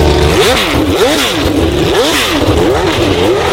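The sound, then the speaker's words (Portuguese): A Formula 1 racing car engine accelerates, its loud, continuous roar rising and falling in pitch through several repeated sweeps as it revs. “É hora de falar de esporte e o assunto é Fórmula 1. Portanto, acelera aí.”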